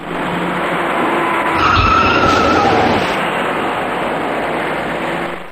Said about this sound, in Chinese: 从后方快速开来的一辆白色小客猛然撞上了刚刚减速的前车，而被撞的前车又顶上了行驶在前面的另一辆小客。